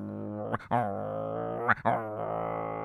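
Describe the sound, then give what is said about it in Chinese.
A human voice imitates a dog growling and snarling: a steady, low, rumbling tone broken by two sharp barking bursts. “姜子牙一看旁边的哮天犬还在那里冲着蛮太岁叫呢，”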